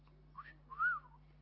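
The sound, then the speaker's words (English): A person whistles two brief notes: a short soft chirp, then a longer, clearer tone that rises and falls. Faint throughout, over a steady low hum, with no talking. “He whistles. Do you realise that? He whistles. He's a whistling God.”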